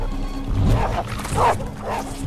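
Dogs bark as they leap up, giving a few rough, loud barks over a dense, noisy background.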